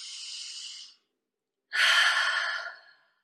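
Breathing in and out during an exercise routine: two airy breaths with a short gap between them, the second louder and fuller than the first, with no talk.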